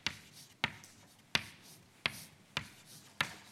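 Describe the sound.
Writing out a formula during a lecture produces six sharp, crisp strokes, fairly evenly spaced, each a quick tap-like hit that fades fast, heard alone without talk.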